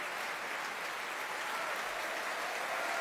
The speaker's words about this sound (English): The three of them taking their applause, being roundly applauded by everyone on stage, as well as you can hear,